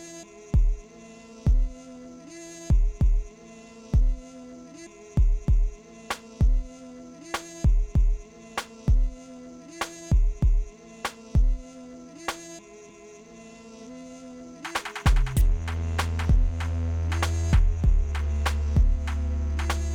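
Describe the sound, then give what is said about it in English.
A programmed beat track plays from a beat machine: a steady, repeating pattern of punchy low drum hits with a faint tonal line above. About three-quarters of the way in, a loud, sustained deep bass layer joins. No voices are heard. “Let me go over to the beat machine here, and we're just gonna put a track on”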